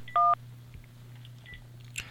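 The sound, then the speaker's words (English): Touch-tone dialing of a phone number: one loud, short dual-pitched tone, then a few faint, brief tones over a low, steady hum. “we got to dial it first. So let's do that.”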